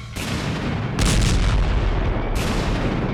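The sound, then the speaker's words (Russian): Powerful explosions as an ocean liner tears apart: a dense, continuous roar of deep rumbling blasts, with two sharper, louder bursts flaring up partway through. “Послышалась серия мощных взрывов. Металл рвался, точно бумага. Оглушительные раскаты сотрясали землю.”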